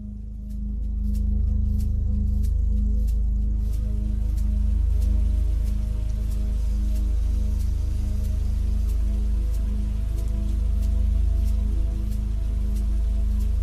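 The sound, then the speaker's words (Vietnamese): Heavy night rain pours onto a road, window glass and roofs, heard as a dense, continuous low rumble with scattered crisp drops and drips running throughout. “Cơn mưa đêm tầm tã trút xuống đến cả ngàn tấn nước. Âm thanh ù ù của những hạt mưa bị vỡ tan khi va đập xuống mặt đường, va đập lên những ô kính cửa sổ, lên những mái nhà”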